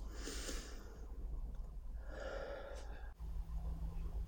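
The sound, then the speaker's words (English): Breathing during a guided meditation: two audible breath sounds, a breathy nasal intake followed by a softer airy exhale through the mouth, both fairly faint. “So go ahead and breathe in through your nose and out through your mouth.”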